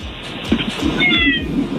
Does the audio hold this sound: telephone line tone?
no